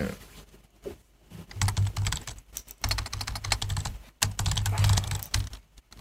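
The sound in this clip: Typing on a computer keyboard: fast bursts of clattering keystrokes broken by short pauses, with the rapid taps running fairly loud throughout.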